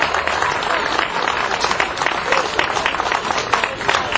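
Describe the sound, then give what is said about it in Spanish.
Applause for the president of the Ñuñoa association of women microentrepreneurs at a solidarity event for Honduras, dense sustained clapping at an even, fairly loud level. “Me dicen aquí que por favor no dejen de nombrar a la Asociación de Microempresarias de Ñuñoa, que aquí está la presidenta. Un fuerte aplauso para ella.”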